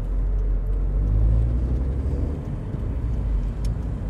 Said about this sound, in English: And the different cars going past.